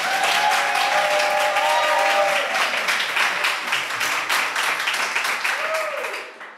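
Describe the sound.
Live audience applause at a recorded show in Santa Coloma, dense and continuous clapping that stays loud for the first few seconds, then gradually thins and softens toward the end.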